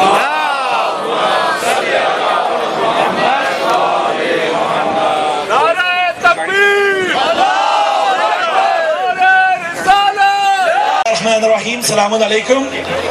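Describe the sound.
A protest crowd outside a Pakistani consulate chants Salawat together in welcome. The dense mass of voices swells and falls in loud, continuous rhythmic waves.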